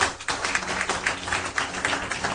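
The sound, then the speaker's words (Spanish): Rhythmic clapping from a church audience, the steady beat repeating every quarter second or so at moderate volume over a low, humming background. “Denle un aplauso al Rey de Reyes.”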